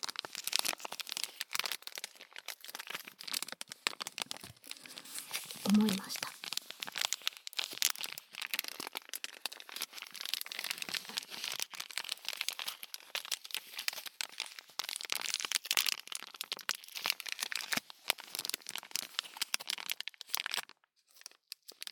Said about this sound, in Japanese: そして本体、この袋がなかなかにいい音をしているなと。